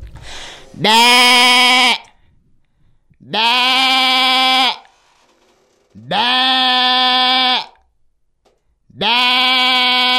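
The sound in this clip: A human voice imitates a sheep bleating in four long, loud, buzzy, wavering bleats separated by short silent pauses, with no other sound around them.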